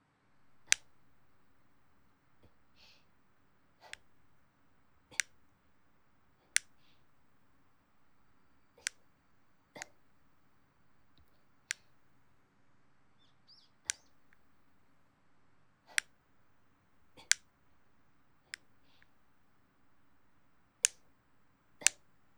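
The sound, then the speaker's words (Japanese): Fingernails being clipped with nail clippers make many sharp, crisp snaps at a fairly regular pace of about one every second or two, each a bright click standing alone against near silence. “爪を切るパチンパチンっていう”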